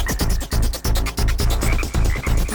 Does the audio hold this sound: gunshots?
no

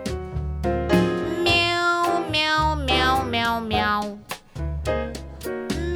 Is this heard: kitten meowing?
yes

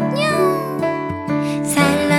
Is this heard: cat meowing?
yes

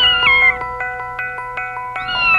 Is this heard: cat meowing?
yes

